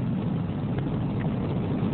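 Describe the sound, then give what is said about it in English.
A deep, continuous roar comes from the liftoff of the final Air Force Titan IV rocket. The sound is a dense, low-heavy rumble that stays steady and loud without a break for two seconds. “We have ignition and liftoff of America's silent hero, the Air Force Titan IV. Great rocket. This is the final Titan IV to be flown.”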